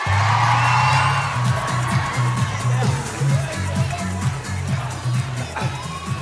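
Cheers, whoops and applause from a live show audience welcoming a returning guest, loud and sustained for the whole clip, with a low, pulsing beat running underneath.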